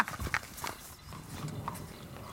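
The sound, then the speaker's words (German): A horse walking, its hooves clip-clopping in a series of short, uneven knocks at an easy pace, fairly faint against a quiet background. “Wir holen jetzt mal dein Pferd.”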